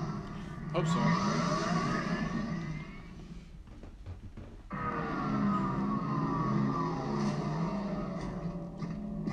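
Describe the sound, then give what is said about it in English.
A transport vehicle in a video game runs with a whirring engine drone and sweeping whine-like tones. The noise dips briefly in the middle, then resumes at full strength. “Can I use this sweet ride?”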